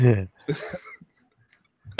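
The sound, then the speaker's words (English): Coughing after a fit of laughter, a few short harsh bursts separated by quiet gaps, with a louder one at the start and another at the end. “That made me laugh because when I laugh, I cough.”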